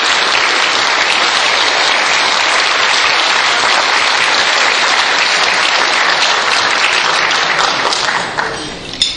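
Loud, sustained audience applause welcomes the president of the European Bridge League at a bridge gathering, dense clapping holding steady for about nine seconds before tapering near the end.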